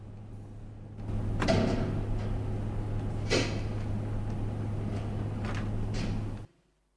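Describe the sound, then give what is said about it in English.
Prison van doors and prison doors being shut: a few heavy metallic clunks and bangs over a constant low hum, with quieter handling noises between them before everything cuts off. “Once the van doors are shut, the guard comes back in and closes the prison doors.”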